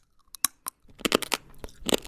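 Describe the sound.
Crunching bites into an edible drinking straw made of wheat and apple that snaps like a noodle: a few sharp, separate cracks, then a quick run of crisp crunching and chewing. No talk.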